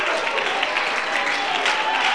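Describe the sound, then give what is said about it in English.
A church audience claps during worship, a dense, steady wash of many hands clapping together without a break. “Come on, clap your hands and give him the glory.”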